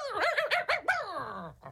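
A dog barks in a quick run of short, yelping barks, then lets out a longer whine that slides downward in pitch and ends with one brief yip.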